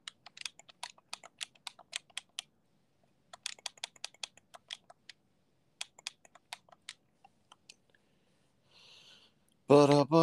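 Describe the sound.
Quick typing on a computer keyboard to search for news, in bursts of rapid clicking keystrokes separated by short pauses. The clicks thin out toward the end, and a brief voice closes it.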